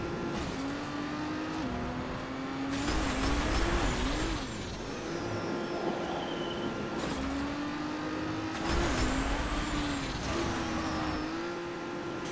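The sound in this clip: Car racing in the video game Trackmania: a steady engine whine that shifts pitch in small steps as the car drives, with a brief rasp at a few points.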